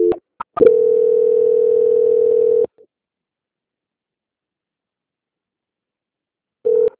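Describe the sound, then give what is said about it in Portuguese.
A telephone tone sounds as a call is being transferred. A few short blips lead into a steady tone of about two seconds, then silence, and the same tone comes back at the very end. “Tá, vou lhe transferir.”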